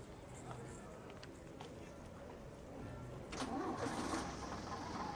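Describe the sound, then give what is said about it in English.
A bus engine starts up as a low, mid-pitched rumble that swells louder partway through, with a voice speaking over it. “As the bus starts up, she stares at it.”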